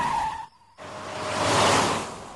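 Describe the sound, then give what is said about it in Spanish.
A car accelerates at full throttle with a broad rushing roar. It starts after a brief dip into near-silence, then swells loudly and eases slightly toward the end. “Ahora pisar el acelerador a fondo.”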